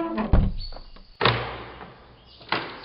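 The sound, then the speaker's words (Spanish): A front door is shut and locked with a key: a sharp knock, a heavier wooden thud, then another firm clunk, with faint rattling between them. “El doctor Van Helsing había tomado del manojo la llave de la puerta de entrada, cerró esta cuidadosamente”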